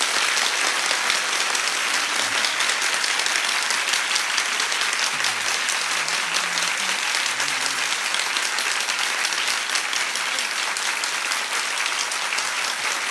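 Audience clapping, a dense, steady wash of many hands applauding loudly and without pause for the whole stretch.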